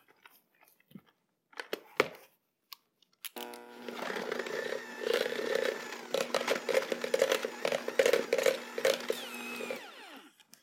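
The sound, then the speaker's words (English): A hand mixer whirs through softened full-fat cream cheese and softened butter in a bowl, a loud, buzzing motor drone with pulsing texture that runs steadily for about seven seconds after a few soft knocks. “And we're going to use a hand mixer and blend this.”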